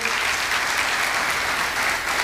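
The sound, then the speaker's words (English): Steady applause from a church audience welcoming first-time guests at a service, dense, even clapping that stays loud throughout. “Come on, can you give God a hand today? Really quick, I love to always welcome our first time guests. So if this is your first time here, come on, let's give it up for our first time guest today.”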